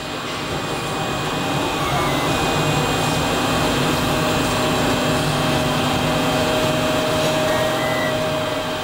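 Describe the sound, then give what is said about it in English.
A 3D printer printing the bright pink plastic sole of a shoe in a factory, giving off a loud, continuous whirring drone with steady high whining tones running throughout. “That's the sound of an actual 3D printer spitting out the bright pink plastic sole of a shoe inside Lucy's factory here in San Diego.”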